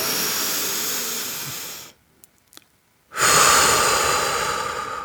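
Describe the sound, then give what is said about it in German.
A deep breath is drawn in through the nose as a long, steady airy rush. About a second of near silence follows, then a second long breath is let out. “Setz dich bequem hin und atme tief durch die Nase ein”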